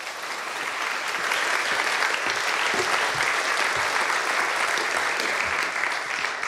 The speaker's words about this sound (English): Please put your hands together and welcome Chris Berg.